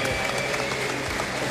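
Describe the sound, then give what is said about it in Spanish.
Steady, dense applause from an audience voting on a 1980s Soviet Union football shirt. A continuous wash of many hands clapping without pause. “Aplauso cerrado. Algunos vitoreos.”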